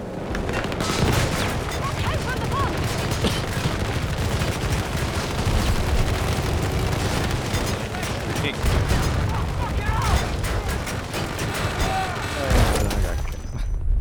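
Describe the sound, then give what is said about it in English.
Gunfire and explosions from an impact shell in a shooter video game: dense, continuous shooting with heavy booms, the loudest blast near the end. “Oh, impact shell. That's pretty good.”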